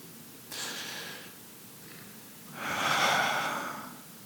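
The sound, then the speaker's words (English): A deep breath in and out: a soft, airy inhale followed after a short pause by a longer, louder, breathy exhale that swells and fades, alone with no talk. “just stop and take a deep breath and breathe it out.”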